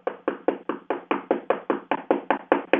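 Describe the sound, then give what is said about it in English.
Knocking on a front door: a long, steady run of rapid, evenly spaced knocks, about five per second, each a sharp hollow thud, continuing without pause and with no voices. “But if that person keeps knocking and keeps knocking”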